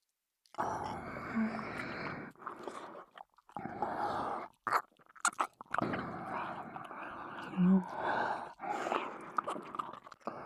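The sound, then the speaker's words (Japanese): Wet licking and mouth sounds made close to the ear in an ear-licking session, soft and quiet, coming in irregular bursts with brief pauses and light breathy whispers between them. “あ、耳を舐めてほしい。いいですよ。 では、いただきます。”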